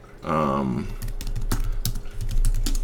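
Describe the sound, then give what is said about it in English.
Typing on a computer keyboard: a brief voice, then a quick, uneven run of many light key clicks. “So we could just type in bubble cycle, right?”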